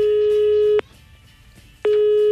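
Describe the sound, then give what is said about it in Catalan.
Ringing tone of an outgoing telephone call: a steady mid-pitched tone lasting just under a second, a pause of about a second, then the tone starts again and runs to the end. “Va, que l'estem trucant ja.”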